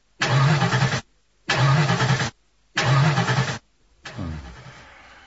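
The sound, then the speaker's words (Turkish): A stalled car engine that had been sputtering is cranked to restart in three loud, equal churning bursts separated by short silences, then a weaker fourth attempt fades out without the engine catching. “Motor durdu. Arıza mı yaptı araba? Herhalde. Dur bakayım. Çalıştırmaya deneyeyim.”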